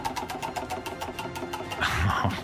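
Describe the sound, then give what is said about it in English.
A spinning prize wheel gives a rapid, steady run of many evenly spaced ticking clicks, with a louder burst of noise rising near the end. “Wheel is spinning.”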